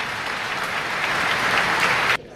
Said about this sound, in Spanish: han roto el sepulcral silencio, una ovación que, por cierto, se ha prolongado durante casi 3 minutos.